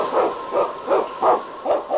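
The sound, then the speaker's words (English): Husky sled dog, a lead dog of the North Country, barking in a quick run of about six sharp, mid-pitched barks, loud and without talk. “It's King, swiftest and strongest lead dog of the North Country”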